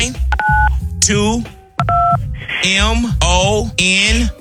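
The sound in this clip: Touch-tone keypad beeps from a telephone being dialed to enter a contest code: two short, clear dual-tone presses separated by stretches of people talking.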